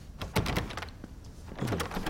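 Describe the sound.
A stuck old door leading to a kitchen is forced open: a run of thuds and knocks, then a strained creak of the hinges near the end.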